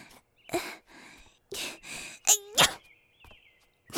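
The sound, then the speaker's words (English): A few sharp, breathy sneezes from someone with a dust allergy, separated by short pauses, with a voiced rising gasp just before one of the bursts. “I keep failing every time. My sneezes disrupt my magic and make it go haywire.”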